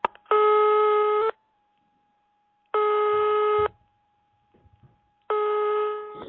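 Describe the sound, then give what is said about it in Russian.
A long-distance telephone call ringing: three steady ringback tones, each about a second long, evenly spaced by quiet gaps, with faint scattered noises in between. “наступает иногородний звонок.”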